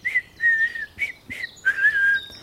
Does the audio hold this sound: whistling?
yes